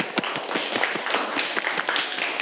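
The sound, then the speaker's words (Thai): Students clap in a classroom, a quick run of many sharp hand claps that stays steady and fairly loud throughout. “ถูกต้องครับปรบมือนักเรียน”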